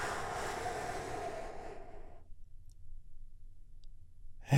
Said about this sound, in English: we do that by taking a big, deep healing breath right now. Here we go.